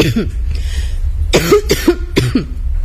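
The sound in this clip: Coughing from a woman who is ill, with several harsh, throaty bursts in the second half. The coughs carry a voiced, rasping tone over a steady low background hum.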